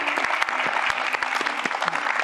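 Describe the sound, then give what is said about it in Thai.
Studio audience applause welcoming a guest on a talk show, a brisk, dense patter of many hands clapping at a steady level through the whole moment. “ขอเสียงปรบมือต้อนรับคุณไส้หลินหวังครับ”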